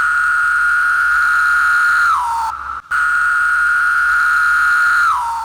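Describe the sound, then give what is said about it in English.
A 17-year periodical cicada of Brood X, from Southwest Ohio, calls in two loud, long, steady buzzing tones. Each tone drops in pitch at its end, with a brief gap between the calls. “That's the sound of a cicada, and it's going to be repeated in a chorus of billions as the 17-year Brood 10 emerges from the ground.”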